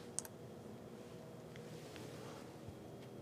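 A single sharp mouse click on an on-screen Activate button, short and crisp, standing alone over a faint steady hum near the start.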